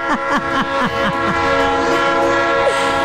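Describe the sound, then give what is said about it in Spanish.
A passing train sounds its horn in a loud, sustained chord of steady tones. Several short repeated notes sound near the start. “Pues si no es el tren que pasa ahí por las Américas, tú.”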